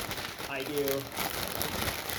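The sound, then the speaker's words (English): Dry crinkling and crumpling of wadded packing paper, a steady rustle running throughout, with a faint voice briefly underneath. “I do wads of paper, and then I nest them in, and then I put a sheet of paper over a layer just so they don't bump”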